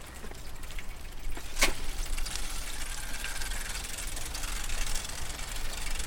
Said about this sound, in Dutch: richting Pierre Marchand brug en we rijden voorbij die containers, dat is Circle Park. We zullen daar even naartoe rijden.